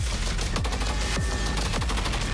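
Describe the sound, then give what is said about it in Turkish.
Rapid automatic fire from an MMT-76 light machine gun, an 8-kilogram weapon rated at 750 rounds per minute, comes as a dense, loud, continuous stream of sharp reports with a few heavier thumps standing out, and no voices. “MMT-76 hem piyade tipi hafif makineli tüfek hem de helikopter platformlarında görev yapabilecek çok amaçlı bir silah sistemi kabiliyetine ulaştı.”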